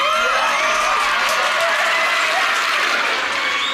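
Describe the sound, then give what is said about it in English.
A crowd at a stage event cheers and applauds, with loud, sustained clapping mixed with whoops and high shouts that stays dense throughout. “Make some noise if y'all agree, man.”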